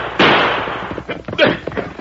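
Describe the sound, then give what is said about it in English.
Two gunshots fired as a signal to call men in, out in a mesquite patch: a loud, sharp report with a decaying tail, then a second blast about a second later. “Quick, fire two shots. Call the men in.”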